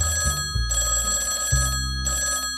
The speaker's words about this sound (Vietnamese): Bố gọi 113 luôn đi ạ.